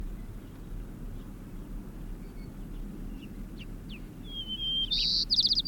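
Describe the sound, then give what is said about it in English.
White-crowned sparrow song: a thin, high whistled phrase that brightens near the end, over a steady low rumble. “White Crown Sparrow, eh?”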